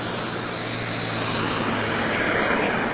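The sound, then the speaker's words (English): Road traffic rushes past while someone waits to cross, a steady, even wash of engine and tyre noise with a low hum underneath and no voices. “just waiting to cross the road there, you probably hear the traffic.”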